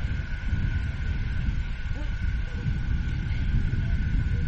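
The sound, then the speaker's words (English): Wind buffets an open microphone at an amateur baseball game, producing a steady, dense low rumble that holds at an even loudness throughout with no clear breaks. “Wind kicking up pretty good, as you can hear in our microphone.”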